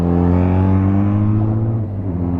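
Engine of a press vehicle passing during an off-road rally, a loud, continuous droning note with strong harmonics that holds steady and dips slightly in pitch near the end.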